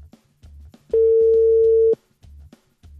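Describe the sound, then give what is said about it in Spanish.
A telephone tone sounds as a call is dialed: one steady, loud mid-pitched beep lasting about a second, set against a low, pulsing background sound that comes and goes around it. “Estamos marcando.”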